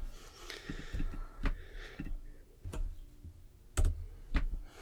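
Typing on a computer keyboard: faint, scattered key clicks at irregular intervals, with a few sharper, louder taps standing out over a low, quiet background.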